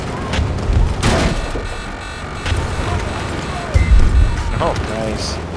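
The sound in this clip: Pistol gunfire in a video game: a few sharp shots burst out amid other game noise, with players talking over the action.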